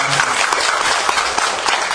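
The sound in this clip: Audience applause at a gathering: a dense, even patter of many hands clapping, fairly loud and continuous from start to finish.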